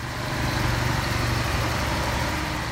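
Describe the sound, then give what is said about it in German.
A diesel generator drones on a street corner in Qamishli. It makes a continuous, rough, low engine rumble with a dense hiss, steady throughout and with no voices. “Dort stehen zwar keine Raffinerien, dafür dröhnt an jeder Straßenecke ein Generator.”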